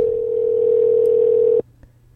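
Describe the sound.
Telephone dial tone while a call is being placed: a steady, continuous hum that holds evenly, then cuts off abruptly near the end, leaving faint low background noise.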